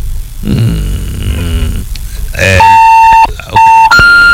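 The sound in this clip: A car horn sounds in three steady, bright blasts: a longer one, then two shorter ones close together. A voice comes before them.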